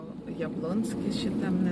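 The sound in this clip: Car driving through the streets of Kaunas, Lithuania, with a steady low engine and road rumble and some wind noise running continuously at moderate level.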